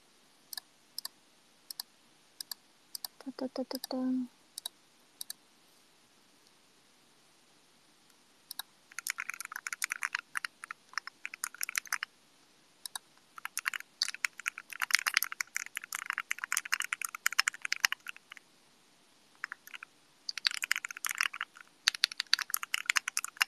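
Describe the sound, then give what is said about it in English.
Clicky typing on a fully assembled D65 mechanical keyboard: sparse, faint key presses at first, then many bursts of rapid keystrokes broken by short pauses. “And then I'm looking at this fully assembled D65 keyboard that looks really nice.”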